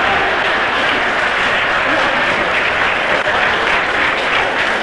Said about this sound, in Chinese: 这时全场观众不得不再一次起立，为我们中国队员取得第二局的胜利而欢呼